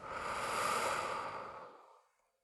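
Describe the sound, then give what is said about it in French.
A single deep breath during a guided belly-breathing relaxation exercise, drawn in through the nose and let out through the mouth: a soft, airy rush that swells, holds and then fades to silence, with no talking. “vous allez gonfler votre ventre en inspirant par le nez et sentir votre ventre repousser vos mains et soufflez par la bouche.”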